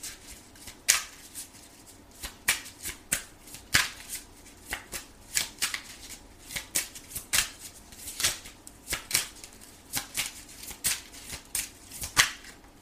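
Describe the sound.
Tarot cards are shuffled over and over, making many quick, crisp riffles and papery snaps in an uneven rhythm, with short pauses between bursts.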